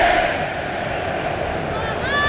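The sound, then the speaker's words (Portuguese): Norway football fans chant and shout in the stadium stands in Dallas during a World Cup match. The crowd roar holds steady throughout and swells slightly near the start and again at the end. “E os Vikings voltam a fazer o seu espetáculo nas arquibancadas em Dallas. E a remada e aquele grito, né?”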